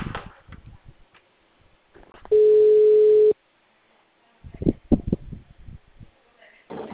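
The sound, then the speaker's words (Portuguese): A phone call's ringing tone sounds as a single steady, mid-pitched beep lasting about a second. Voices talk before and after it. “tá chamando, tá chamando.”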